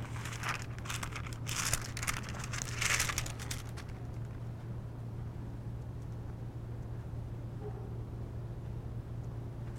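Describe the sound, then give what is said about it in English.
Pages of a book being thumbed through, giving a few crisp, papery rustling bursts over the first four seconds before a low, steady hum carries on alone. “let's see, let me find that. I thought I had a little piece of paper stuck out. I've got to thumb through here.”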